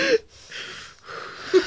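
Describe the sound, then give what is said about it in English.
Deep breath taken at the start of a prayer, an airy rush of air lasting about a second, with brief bits of voice just before and after. “Let's take a deep breath.”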